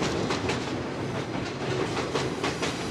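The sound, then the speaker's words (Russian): Train crossing a railway bridge, a loud, steady rumble with a rhythmic clickety-clack of wheels running throughout, with no voices present. “И всегда какой-то вот звук начинается особый, когда поезд едет по мосту железнодорожному.”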